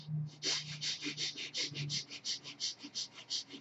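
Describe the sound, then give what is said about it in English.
Quick, short breaths drawn through both nostrils into the chest, a fast, steady run of many sharp, hissy sniffs with no pauses, fairly faint. “start breathing quick and short breath from both the nostrils into the chest, moving off the chest”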